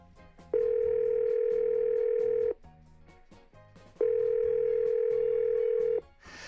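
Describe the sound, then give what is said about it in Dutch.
Telephone ringing tone while calling someone: two long, steady, mid-pitched beeps of about two seconds each, separated by a pause, over a quieter background. “We gaan haar bellen.”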